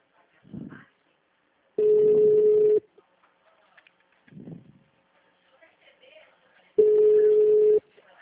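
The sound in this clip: Two long, steady beeps of a phone call ringing tone, each lasting about a second: a mid-pitched buzzing hum separated by a pause of several seconds, with brief low murmurs in the gaps.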